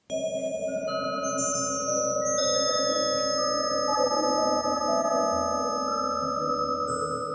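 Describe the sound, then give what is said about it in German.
Sonified vibrations of spider web threads, laser-scanned and computer-modelled, form a steady, even drone of layered sustained tones. Thin, high glinting tones enter and fade above it throughout, with no voices. “Also sie haben ein Spinnennetz mit einem Laser gescannt und am Computer dann nachgebaut, wie das klingt, diese Schwingungen der Fäden.”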